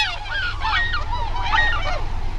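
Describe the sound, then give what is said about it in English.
A flight of tundra swans calls overhead on a winter day: many overlapping, bugling and honking notes that swoop and bend in pitch, sounding over a steady low rushing background. “As a flight of tundra swans passes overhead on a winter day, their voices swell in a kind of wild music.”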